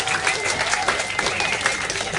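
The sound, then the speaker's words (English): Audience applause at a pub-style quiz night as the scorekeeper is introduced. A thick, continuous patter of many hands clapping holds at a steady, fairly loud level throughout. “Huge round of applause for Score Girl, please.”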